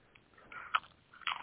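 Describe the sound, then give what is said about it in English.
Someone chewing loudly, a few crisp, crunchy bites and smacking bursts, with the sharpest crunches near the middle and at the end, fairly faint and without talk. “I don't know who's chewing like that, too. I mean, that's rude.”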